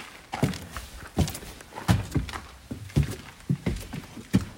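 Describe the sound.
Footsteps entering a vehicle being fitted out inside, a series of dull, heavy thuds at an uneven walking pace, each step a low hollow knock with slight wooden clatter.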